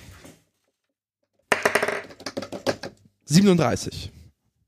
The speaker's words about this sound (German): Ja, du musst jetzt die neuen Würfel auspacken. Oh, ja, bin ich ja gerade neue dabei.